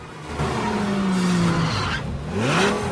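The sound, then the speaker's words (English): Tyres of a Lamborghini screech as it brakes to a stop: a loud, sustained squeal that slides downward in pitch, followed by a second squeal that climbs upward, with no voices. “Ned's Lamborghini number plate reads C3P Gold. He stops for a lollipop man.”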